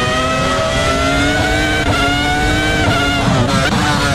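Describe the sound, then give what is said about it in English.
Formula One race cars race side by side at the Nürburgring. Their high-revving engines make a continuous, loud, whining roar with layered harmonic tones that hold steady throughout, and no talk is heard. “arguably some of the best Formula One race side-by-side racing I've ever seen”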